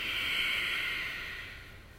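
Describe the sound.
A long exhale through the nose during a guided breathing exercise: a steady, airy hiss that holds for about two seconds and slowly fades toward the end, with no voices.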